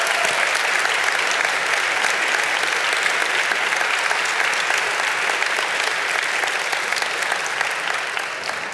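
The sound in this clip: An audience at First Methodist Houston gives loud, continuous applause during a morning service to welcome a visiting family. The dense clapping stays even throughout.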